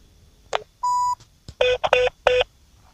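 Telephone keypad tones dial a phone number: several short electronic beeps and one longer steady tone, separated by brief gaps, with the later beeps bunched closely together.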